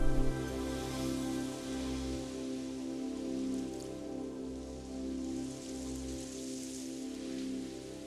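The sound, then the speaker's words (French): Rain falls in a steady, even hiss of drops on a surface, holding at a moderate level through the whole stretch with no voices. “Oh, regardez, il pleut.”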